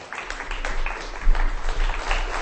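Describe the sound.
Audience applause at a reading event, a dense, steady wash of many hands clapping at moderate loudness, with small swells through the clapping.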